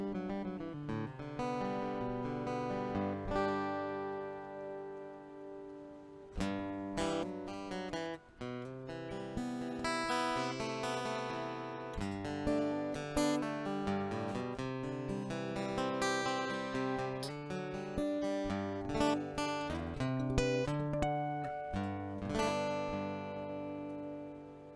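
Acoustic guitar played straight through a piezo pickup, with no microphone. A continuous run of plucked notes and strummed chords keeps a fairly even, moderate level, with crisp attacks on each strum.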